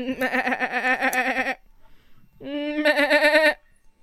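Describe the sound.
Goats bleat in a fantasy video game: two long, wavering, nasal bleats, the first about a second and a half, the second a bit shorter after a brief pause.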